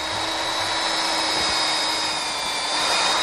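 A pastry chef's chainsaw carves an ice sculpture, giving a loud, steady, buzzing engine drone that holds unbroken from start to finish with no talking.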